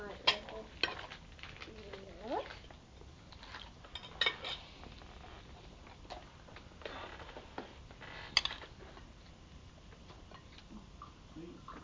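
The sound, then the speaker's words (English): Food being chopped in a kitchen: irregular sharp knocks and light utensil clinks, fairly quiet, over a low shuffling background. “I'll chop it for you. Chop.”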